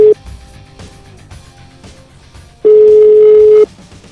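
Telephone ringback tone on an outgoing call: a steady single-pitch beep lasts about one second, with a brief fragment of the same tone at the very start, over low background sound.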